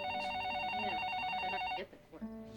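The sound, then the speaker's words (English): A telephone rings in an office with a fast, warbling electronic trill that stays steady for almost two seconds and then cuts off. “The phone rings in Jim's office.”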